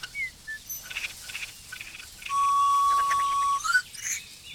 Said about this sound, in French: Grisette. Ouais, ça fait grisette, on va attendre un peu. Fauvette grisette.